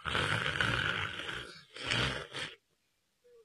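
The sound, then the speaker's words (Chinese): A voice imitates an old man's light snoring with two drawn-out, rasping, breathy snores. The first is longer and the second follows after a short break. A brief faint sound comes near the end. “这老头就手在那儿就打上小呼噜”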